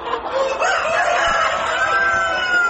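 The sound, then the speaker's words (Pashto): Thousands of native chickens on a large poultry farm in a village in Ghazni province, Afghanistan, cluck and crow together in a dense, continuous chorus of overlapping calls at a steady loudness. “د غزنی ولایت خوګیانو ولسوالۍ په بندیاین کلی کې دلته د وطني چرګانو یو لوی فارم دی چې زرګونه چرګي چرګان پکې ساتل کیږي، پالل کیږي او روزل کیږي.”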